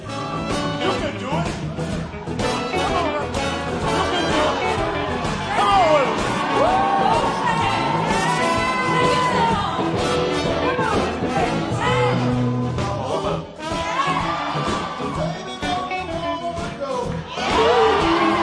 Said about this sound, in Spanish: Tiene público, ¿eh? Sí, gente que le jalea.